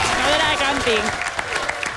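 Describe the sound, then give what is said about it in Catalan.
Audience applause at a campsite contest evening, a steady wash of clapping with voices or cheers rising over it during the first second, then continuing evenly. “Aplaudiment per tots ells. Bravo.”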